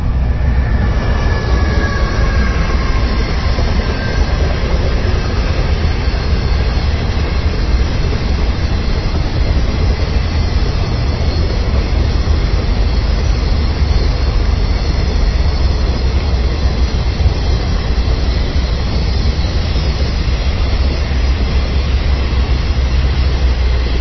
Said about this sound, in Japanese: 貨物列車が駆け抜けていきました。